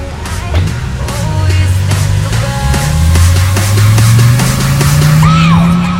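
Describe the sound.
A car speeds off down a road, its low engine drone rising steadily in pitch as it accelerates and staying loud throughout.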